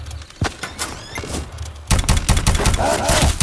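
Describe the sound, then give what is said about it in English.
Gunfire in a video game: a sharp single shot early on, then a dense burst of rapid, loud firing that fills the second half without letting up. “I'm like, how are you even shooting?”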